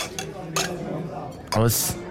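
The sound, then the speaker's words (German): Antique drinking glasses clink as someone handles them: a few sharp, bright clinks with brief glassy ringing, while people talk alongside. “Guck mal her. Siehst du das? Das sind antike Gläser.”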